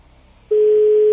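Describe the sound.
A telephone line tone plays on a call that goes unanswered. After a faint low murmur, one loud electronic tone cuts in sharply and holds at a steady pitch to the end.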